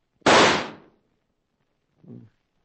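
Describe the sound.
A single gunshot from a blue steel Winchester, played as a radio comedy sound effect: one loud, bright crack that decays over about half a second, followed by a brief faint low sound.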